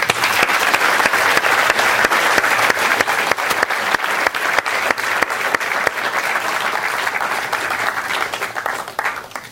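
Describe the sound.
Sustained applause from an audience welcoming guests onstage: dense, steady clapping that holds for about nine seconds, then eases slightly and cuts off at the end.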